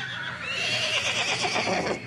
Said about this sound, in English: Trainer Sylvester Skierkowski watches his horses go through some final paces before competition